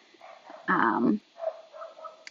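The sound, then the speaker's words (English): Dogs barking at a home delivery of chicken: one strong, sustained bark stands out, with fainter yips and whimpering sounds around it, all at a low overall level. “Sorry if you can hear my dogs. We're getting a delivery of pasture-raised chicken today. That's probably what's happening.”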